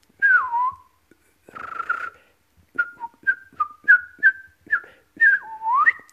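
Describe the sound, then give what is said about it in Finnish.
Whistling shaped by the tongue rather than the lips: two longer, clear notes, the first falling in pitch, then a quick run of many short, bright notes that hop up and down. “nyt sitten tämä ääni ei tulekaan enää huulista, vaan mä teen äänen kielellä. Eli kaikki lähtee tuolta kielen liikkeestä tyyliin ylhäältä kitalaista.”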